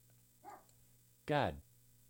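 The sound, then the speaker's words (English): A dog barks once, a single loud, sharp bark with a fainter brief sound a moment before it, over a quiet, low background hum. “So if you heard a dog barking in there, that's him.”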